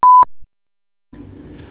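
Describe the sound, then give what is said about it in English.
An answering machine beep: one short, loud, steady tone, followed by a moment of silence before a voice starts speaking. “please leave a message and your phone number after the beep”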